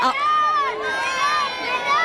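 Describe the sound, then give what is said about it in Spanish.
Children chant football players' names as the team climbs onto the bus. The shrill young voices rise and fall together in loud, overlapping calls. “Mira, ves aquí como los niños corean. Totalmente. Los nombres de los jugadores, Ferran, que se están subiendo al autobús.”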